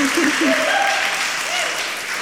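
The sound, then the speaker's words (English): Audience applause welcoming a speaker to a church stage: loud, dense clapping that fills the whole moment and holds steady before easing slightly at the end. “Would you join me in welcoming the lovely Emma to the stage, platform, whatever this thing is?”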